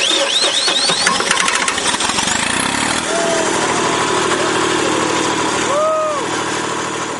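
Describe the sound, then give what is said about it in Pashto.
A generator engine running to light a sports ground before a match makes a loud, steady mechanical drone that holds a constant level throughout. “جنراتور چالانه سو، میدان رڼا سو”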